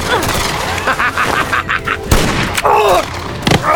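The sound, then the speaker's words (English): A gunshot rings out during a close-range shootout in which a Mexican captain is hit; a sharp, loud blast cuts through a dense, noisy background, with another brief hard impact near the start. “Another shot hit the Mexican high in the shoulder.”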